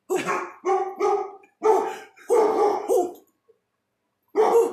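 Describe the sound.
A dog barks in a burst of several loud, sharp barks in quick succession. After a short pause, one more bark follows.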